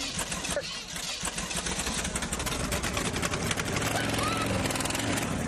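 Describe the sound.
An engine just started and running rough with a bad misfire, giving a steady, loud, low rumble that continues for the whole stretch.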